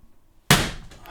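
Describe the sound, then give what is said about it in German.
A single sharp hand slap swatting a mosquito, one loud sudden crack that fades within about half a second, with no talk around it. “So, es hat einmal geknallt, das war eine Mücke, Entschuldigung.”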